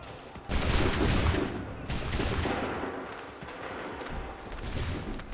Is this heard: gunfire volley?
yes